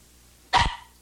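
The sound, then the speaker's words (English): A dog gives one sharp, loud bark that cuts in after quiet and fades quickly. “And dogs.”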